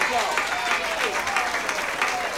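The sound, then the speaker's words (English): Audience applause for a band: dense, continuous clapping with a crowd murmur underneath, steady in level throughout. “So how about a nice big round of applause for the band?”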